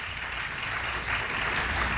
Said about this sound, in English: Thank you so much. Give him a round of applause.